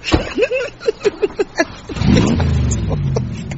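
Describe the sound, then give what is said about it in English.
A car engine revving hard after a few short bursts of voices, the loud rumbling roar holding steady to the end. “That's £2 worth of petrol just to rev it up.”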